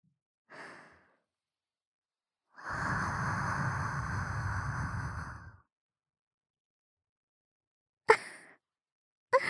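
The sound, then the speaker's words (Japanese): Breath blown close to the ear: a brief soft exhale, then a long, steady, airy whoosh lasting about three seconds. Two short, sharp clicks follow after a quiet gap. “別にお兄さんの近くだったら、どこに息を吹きかけても問題はないじゃないですか。 お耳でも。”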